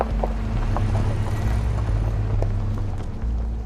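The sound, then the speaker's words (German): A car engine gives a steady, low rumble that holds at an even level throughout, a continuous drone with no clear pass or fade. “And then the car passed. Und dann an ihr vorbeifährt. And passed. Und fährt. Und fährt. Und verschwindet.”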